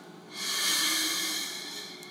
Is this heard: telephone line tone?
no

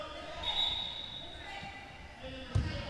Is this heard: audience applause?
no

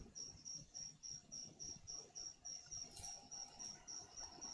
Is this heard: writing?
no

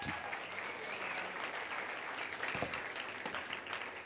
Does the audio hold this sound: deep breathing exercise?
no

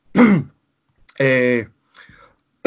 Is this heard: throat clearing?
yes

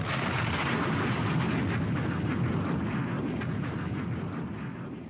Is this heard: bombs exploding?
yes

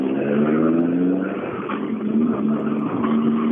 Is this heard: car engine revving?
yes

